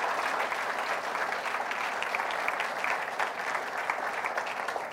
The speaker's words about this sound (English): Would you put your hands together for Natalie too?